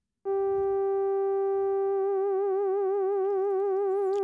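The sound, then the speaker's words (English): Synthesizer tone with rich harmonics that starts abruptly and holds a steady pitch, then gains an even pitch wobble, or vibrato, from a low-frequency oscillator partway through, continuing loud and sustained to the end. “apply a kind of wobble to the pitch of the tone. If it were a classical instrument, we'd call that vibrato. In fact, some synthesizers do. It's done with what's called a low-frequency oscillator.”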